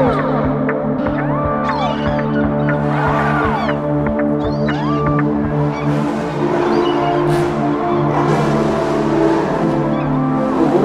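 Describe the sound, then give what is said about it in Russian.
A car drifting on Nevsky Prospekt, with the engine revving and tyres squealing in a dense, unbroken mix. Rising and falling engine tones overlap with sharp, high tyre squeals throughout. “В эти выходные Невский проспект стал площадкой для экстремального вождения. Показательный дрифт прямо на глазах полицейских.”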